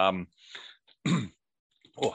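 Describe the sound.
Throat clearing: a few short, loud, rasping bursts mixed with voiced grunts, separated by brief silences.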